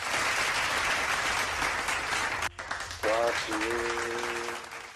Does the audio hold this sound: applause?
yes